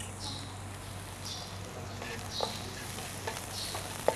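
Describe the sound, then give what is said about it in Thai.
Bruised chilies fry in a little oil with a faint, steady sizzle and hiss, broken by a few sharp pops and ticks. “เราจะเติมน้ำมันไปนิดนึงนะเพื่อให้น้ำมันมันไปดึงกลิ่นหอมของพริกออกมาได้ด้วยนะคะ”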